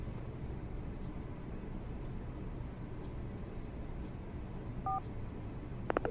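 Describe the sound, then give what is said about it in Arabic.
Touch-tone beeps ring out as a number for a UAE landline is dialed: a couple of short, clear tones near the end over a faint, steady low rumble. “طيب اتصل على الرقم الثاني، أكيد راح يفيدنا بشيء.”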